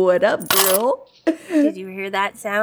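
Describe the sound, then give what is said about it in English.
Coins dropped into a jar make one short, bright metallic jingle and clatter, framed by people talking just before and after it. “That is the sound of me putting $8 in the gross jar.”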